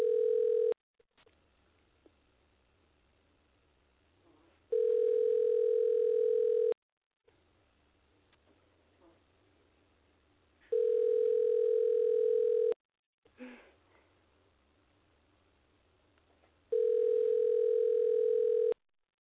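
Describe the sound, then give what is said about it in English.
Telephone ringing tone on a call: after a brief cut-off tone, three long, steady tones repeat about every six seconds, with quiet line hiss between them. “Okay. Dialing.”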